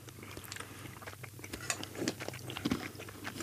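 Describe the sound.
Crunchy biting and chewing of caffeinated chocolate pieces, with many irregular, crisp crunches and moist chewing sounds.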